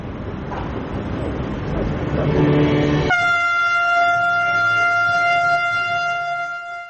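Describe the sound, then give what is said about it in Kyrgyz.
A freight train on a rail route from China to Serbia's capital gives a broad rumbling noise at first. A long, steady horn blast then starts partway through and holds to the end. “Жүк ташуучу поезд Кытайдын Синьян шаарынан чыгып, Сербиянын борборуна чейин 10,5 чакырымды бир айда басып жеткен.”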